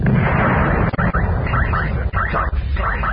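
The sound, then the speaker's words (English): Planetary defense guns firing on a Star Destroyer fleet in a sci-fi battle scene: a loud, continuous roar of blasts and rumbling explosions, with a few brief dips, and no voices. “Planetary defense is firing on the fleet. Shields are holding.”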